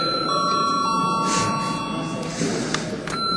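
Steady electronic ringing of a parliamentary voting bell, a sustained tone with a few bright overtones held continuously over constant room noise.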